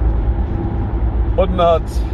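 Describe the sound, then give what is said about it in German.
Steady low rumble and road hum inside a driving car, constant throughout, with a voice speaking briefly near the end. “falls ihr ein bisschen Hintergrundgeräusche habt, wie gesagt, ich sitze gerade im Auto, ich bin auf dem Weg.”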